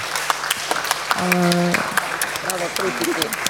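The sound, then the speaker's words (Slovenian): Scattered audience applause, with sharp individual claps sounding under a voice that speaks across most of the stretch. “Tudi kritikom, ki se po dvojletnem mandatu poslavljajo, tako da prosim za aplauze.”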